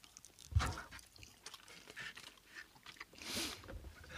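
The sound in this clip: Faint, soft chewing of Bontan Ame candy, with a few quiet, moist bites and mouth clicks spread unevenly through an otherwise hushed stretch.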